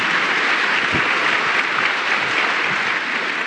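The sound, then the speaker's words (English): An audience applauds after a talk about a book. The clapping is dense and steady, continuous at an even loudness without pauses. “This is a very clappy audience. I like that. Very clappy audience.”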